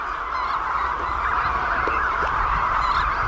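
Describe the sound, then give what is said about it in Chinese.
Many adult Caribbean flamingos returning from feeding call together in a dense, continuous chorus of nasal, goose-like honks, a steady blend with no pauses. “加勒比海红冠幼鸟已经两天没有进食了，饥饿难耐。好在，它们已经听到了亲鸟觅食归来的叫声。”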